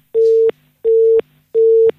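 Three identical busy-signal beeps after a dropped phone call: steady, mid-pitched electronic tones, each lasting about a third of a second, separated by short silent gaps, loud and without talk.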